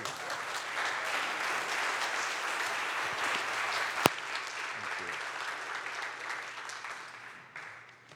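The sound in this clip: A church audience on its feet applauds to welcome a guest speaker, a steady, dense wash of clapping that holds evenly and thins slightly toward the end.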